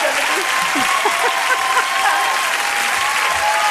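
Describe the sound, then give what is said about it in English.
Dense crowd applause from a live audience rolls on steadily and loudly for the whole stretch, with faint voices mixed in during the first couple of seconds. “Enough clapping.”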